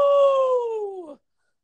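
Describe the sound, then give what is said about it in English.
A person imitates a wolf pack howl with a single sustained voiced howl. The tone is clear and loud, glides slowly downward and cuts off after about a second. “So we need you to give us your best wolf pack howl.”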